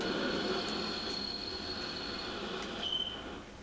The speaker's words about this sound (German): Was ist denn nun los? Der Zug hält ja schon wieder.